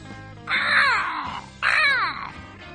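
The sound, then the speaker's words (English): A crow caws twice, each call a long, harsh, nasal cry that trails downward in pitch, separated by a short pause and fairly loud on its own. “There's one crow goes, yeah, yeah.”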